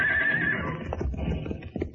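Horses on a chase leap across an arroyo: a high, shaky whinny rings out at the start, then heavy hoofbeats thud and scrape unevenly.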